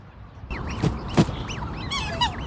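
A flock of black swans calls in several wavering, honking bugle notes at varied pitch, broken by two sharp knocking sounds early on, with no talk.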